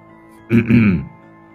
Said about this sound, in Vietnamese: Hắn hắng giọng.